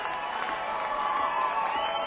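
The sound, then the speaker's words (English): Audience applause and cheering at a live show fill the whole stretch as a steady, dense wash of clapping mixed with shouts and whoops. “So will you please give us a big old applause and a big old round.”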